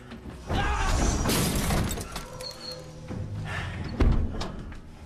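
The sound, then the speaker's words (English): A heavy metal door swinging shut and smashing a mirror makes a loud, sustained crashing burst with a shattering, rattling texture, followed later by a sharp heavy thud. “tries to stop the heavy metal outer door from closing, smashing the mirror in the process.”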